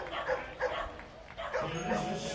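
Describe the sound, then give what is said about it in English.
Dogs barking at a baseball game in the top of the ninth inning: several bursts of yelping barks, fairly faint, heard under an announcer's voice. “The dogs going crazy.”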